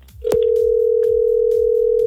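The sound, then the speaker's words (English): A telephone dial tone comes on with a short click as the line opens for dialing a number. After that a single steady, mid-pitched hum holds unbroken, with a few faint ticks underneath. “Dialing this now.”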